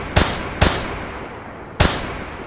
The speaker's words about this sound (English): And we can say that he is firing a couple times, but it's not going well.